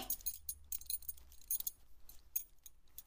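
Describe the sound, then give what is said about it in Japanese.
Metallic clinking and jangling of a belt buckle being unfastened, heard as many quick, bright rattling bursts in uneven bursts with brief soft gaps between them. “じゃあ、まずはベルトを外して、”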